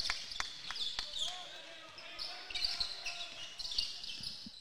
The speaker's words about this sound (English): Liao trying to dribble down the right side of the lane